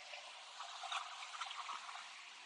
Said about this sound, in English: It's beautiful out here. That's a massive wave right there.